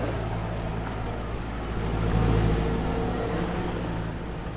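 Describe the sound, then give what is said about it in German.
Engine rumble of a broom wagon, the support vehicle trailing the field at a trail race, a steady low drone that swells briefly in the middle and then settles back, heard alone without talk. “da ist schon der Besenwagen.”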